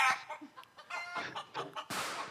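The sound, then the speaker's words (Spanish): Chicken clucking at a market poultry stall, a run of short, harsh, irregular squawks and clucks, fairly loud and uneven in rhythm. “¿Y ese pollo por qué hace así? Cuidado con el pollo.”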